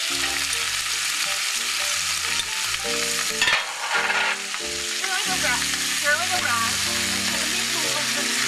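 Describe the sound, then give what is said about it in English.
Meat and onion sizzle steadily as they fry in a saucepan, a loud and constant hiss with stirring throughout. “And then I'm going to add my meat so that it'll, as soon as it gets the color. And the onion.”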